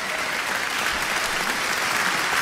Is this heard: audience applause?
yes